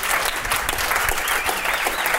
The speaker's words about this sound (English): Give him a round of applause for that one.